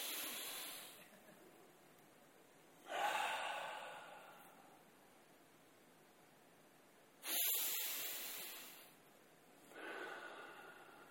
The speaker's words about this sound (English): Do this.